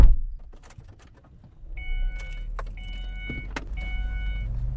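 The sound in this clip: A car's power windows whine on a moving car in the desert, past abandoned farms. Three steady, motor-pitched whines run over a constant low engine rumble, with a few sharp clicks and knocks between them.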